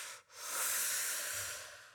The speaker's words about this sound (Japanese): 深呼吸、深呼吸。